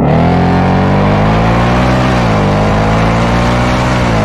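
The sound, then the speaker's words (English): A car engine revs hard at wide open throttle, a loud continuous roar with a strong harmonic drone that sags briefly in pitch midway before climbing again. “in One Day, at the 6-Minute and 27-Second mark, the Dude in Blue goes wide open throttle. I want you to look at the tailpipes.”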